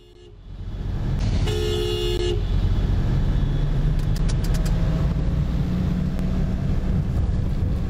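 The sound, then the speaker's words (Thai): A pickup truck speeds along a flooded road. A horn honks briefly near the start, then a steady, loud rush of engine and spraying water runs to the end. “เป็นรถกระบะบีบแต่ไล่รถคันหน้าแล้วโอ้โหอย่างซิ่งอ่ะเหยียบไปอย่างซิ่งทีนี้ถนนมันน้ำท่วมมันก็ไปกระเด็นใส่คนที่เขาขี่มอเตอร์ไซค์อ่ะ”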